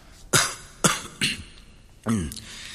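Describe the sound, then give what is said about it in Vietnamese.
A man gives four feigned coughs: three sharp, throaty bursts in quick succession, then a pause and a final, slightly longer one. “Minh đã chuẩn bị sẵn, làm bộ ho mấy tiếng và đáp”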